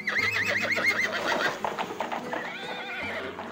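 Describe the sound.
A horse neighs as a king rides away from the city, giving a loud, wavering whinny, then a second call over steady clopping hooves.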